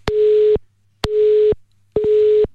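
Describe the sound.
A telephone busy signal while calling someone back: three loud, steady beeps of the same pitch, each about half a second long, separated by equal short silences, with a faint low hum underneath.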